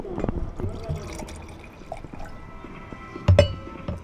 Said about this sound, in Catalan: Ja tenim una ampolla plena, seguim omplint les de les altres, que aquí fem la cata de veritat, eh?